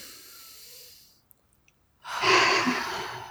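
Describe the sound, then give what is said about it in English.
A deep breath taken during a guided tapping exercise: a soft, airy breath fades, a quiet pause with a few faint clicks follows, then a loud, rushing breath runs steadily to the end. “So ask yourself if it's been serving you in any way. Take a deep breath.”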